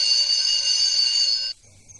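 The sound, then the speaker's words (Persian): Electric doorbell buzz as someone rings at the front door of a house: a steady, bright, harmonic tone held for about one and a half seconds, then cut off abruptly, leaving a faint low rumble. “نگاهی به اطراف می اندازد، دستش را روی زنگ می برد.”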